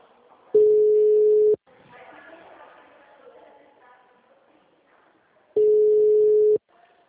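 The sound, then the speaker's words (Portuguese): A dropped phone call tone sounds as two long, steady, mid-pitched beeps about four seconds apart, with faint murmuring voices in between. “caiu a ligação”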